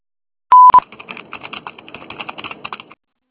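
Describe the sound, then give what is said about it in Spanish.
An answering-machine beep tone sounds as one short, loud, steady note. A burst follows, then a run of rapid, irregular clicks. “Después del tono”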